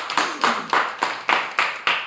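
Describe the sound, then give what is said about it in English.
Audience clapping in a steady, evenly spaced rhythm, each clap crisp and bright, with the beats coming one after another at a regular pace and no talk over them. “Please clap for that. Please.”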